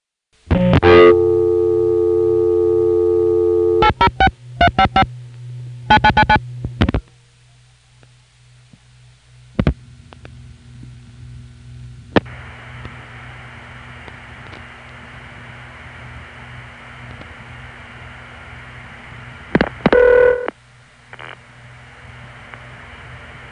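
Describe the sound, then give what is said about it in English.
Telephone signalling on a long-distance call from area code 806, routed through the Amarillo crossbar tandem to operator intercept: a long steady tone, then bursts of multifrequency digit pulsing, scattered clicks, open-line hiss, and a final cluster of short tones. “So here's Amarillo, Operator Intercept, area code 806, via New York 74A, 2123, Amarillo Crossbar Tandem, 8062, to a step.”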